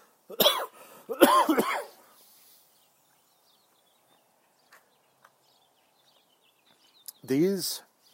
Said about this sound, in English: This isn't coronavirus. This is me choking on my coffee.